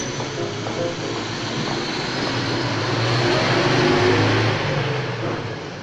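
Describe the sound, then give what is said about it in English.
A post office van drives past on a road, a broad rumble of engine and tyre noise that swells gradually to a peak past the midpoint before easing off. “He stops to study a post office van that's driving past.”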